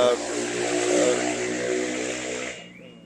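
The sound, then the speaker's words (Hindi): A motorcycle with its silencer removed and a modified exhaust gives a loud, steady, droning engine roar that holds for a few seconds and then fades off at the end. “तो motorcycle जो दोपहिया है उसकी आवाज में से silencer निकाल कर कुछ और चीजें फिट करवाई जा रही है, उसका नतीजा था ये।”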